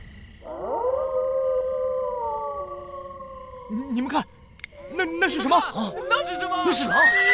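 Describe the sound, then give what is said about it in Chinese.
A pack of wolves howling in the desert late at night, several long sustained howls overlapping and gliding in pitch, then louder, choppier howls mixed with agitated voices. “你们看，那是什么？那是狼，那是狼，那是狼，狼群！”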